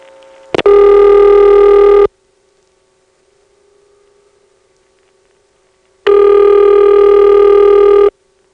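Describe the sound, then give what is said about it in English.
Telephone ringback on a Ladysmith NX2 exchange after dialing a working 448 number. A click comes first, then two loud, buzzy rings of about two seconds each, separated by roughly four seconds of near silence. “Now let's call a working 448 number within the Ladysmith NX2.”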